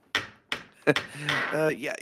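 A studio door with a hinge held on by super glue moves, giving a few sharp wooden knocks followed by a rougher, drawn-out straining sound.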